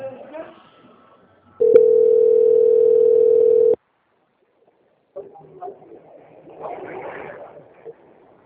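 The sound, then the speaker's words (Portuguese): During a phone call transfer, a steady unbroken telephone tone sounds for about two seconds and cuts off abruptly, followed by a short silence and then quieter muffled sounds on the line. “É, o senhor espera que eu vou transferir. Só não desligar, tá bom?”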